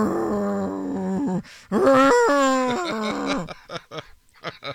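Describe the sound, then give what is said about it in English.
A person imitating a camel with a long, throaty, warbling groan that rises in loudness, then trails off into several short, breathy grunts. “camel sound, please go.”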